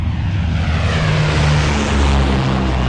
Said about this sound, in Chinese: 一架螺旋桨农用飞机此时正在空中飞行。